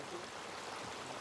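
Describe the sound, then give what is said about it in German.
Flowing water runs through an irrigation channel in dry Andalusia, a steady, soft rushing wash with no breaks. “Es ist doch eine Freude, so viel Wasser zu sehen. Besonders im trockenen Andalusien, wo es seit so langer Zeit nicht geregnet hat.”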